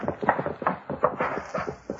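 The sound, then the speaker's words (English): Hoofbeats of a horse ridden hard toward the listener, a fast, steady drumming of many dull thuds in an uneven galloping rhythm that runs throughout, with no voices. “He's coming in riding hard.”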